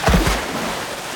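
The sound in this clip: Splashing of otters jumping into river water from their den under willow roots: a loud burst of several quick splashes at the start, then a softer wash of churning water that fades away.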